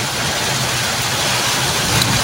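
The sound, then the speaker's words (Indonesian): Heavy rain falling around Pering Surat makes a steady, dense roar that fills the whole clip without break, with no distinct events and no voices. “Wow, lumayan ya, sudah hujan deres ya.”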